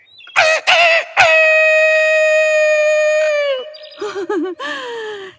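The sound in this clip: A rooster crows: a few short calls, then one long sustained crow. Shorter, warbling calls follow after a pause.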